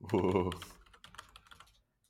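Typing on a computer keyboard: a short burst of quick, light key clicks follows a brief voiced sound at the start, then fades to quiet.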